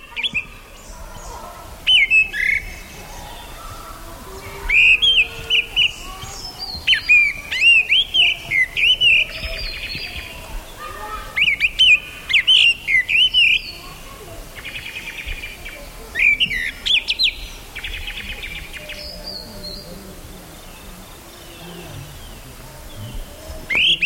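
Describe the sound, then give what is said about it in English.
A gray-winged blackbird sings in India in a 1982 recording, delivering repeated bursts of clear, fluting high whistles and warbles in short phrases separated by pauses, with faint background hiss throughout. “Here's the sound of the gray-winged blackbird recorded in 1982 in India.”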